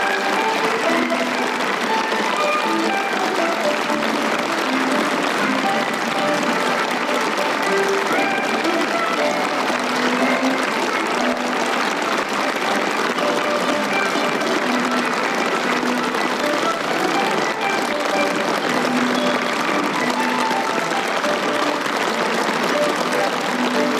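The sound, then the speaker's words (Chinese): Warm, sustained applause from a full audience at an evening New Year opera gala. The dense, even clapping runs steadily for the whole stretch without a break. “19时45分，习近平等党和国家领导人来到晚会现场，同前来观看演出的老艺术家们握手问候，全场响起热烈掌声。”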